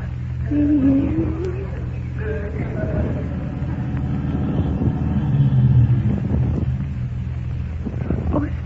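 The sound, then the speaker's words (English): A car drives up and comes to a stop, with a steady low engine rumble and wind-like noise throughout. “somebody drove up while you were kissing me”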